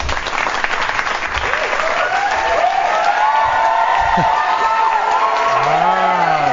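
Applause and cheering from a large crowd, used as a sound effect, form a dense, loud, continuous wash of clapping with whoops and shouts rising through it.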